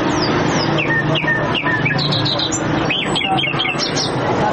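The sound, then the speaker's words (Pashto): Wild birds for sale at a bird market in central Kandahar, including bulbuls, partridges and mynas caught in mountain and forest areas: many overlapping high chirps, whistles and squawks over a dense, steady market din. “دا د کندهار شهر په منځ کې د وحشي مرغانو د پیر او پلور بازار دی دلته پلسکونه بیلابیل ډول وحشي مرغان لکه بلبلان جلان زرکی میناوی او نور چې په غرنوی او ځنګلي سیمو کې نیول سوي پلورل کیږي”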